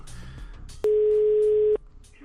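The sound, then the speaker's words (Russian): A single steady telephone line tone sounds on an outgoing call, lasting just under a second at a fixed mid pitch, with quieter background sound before and after it. “Ну, давай этому тырку Андрею позвоним. Вот он в прямом эфире, сейчас перезвоню ему.”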